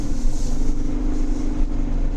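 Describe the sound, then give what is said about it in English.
A car engine and road noise as the driver accelerates after clearing a turn on a highway: a steady, full rumble with a low hum throughout, and no voices. “So I cleared the turn. I'm going to accelerate.”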